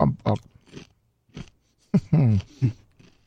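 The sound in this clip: Chewing and biting a large mouthful of several pieces of food at once, wet crunches and munches in uneven bursts, mixed with voices and sounds from the eater's throat.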